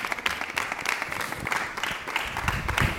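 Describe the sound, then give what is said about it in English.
Audience applause welcoming guests onto the stage at a church youth gathering: a dense, steady wash of many hands clapping, holding an even level throughout. “why don't you put your hands together and welcome them as they make their way out to join me for a conversation together?”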